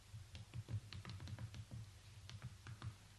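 A reply is typed on a computer keyboard as a quick run of many soft key clicks in an uneven rhythm, faint and with no talking.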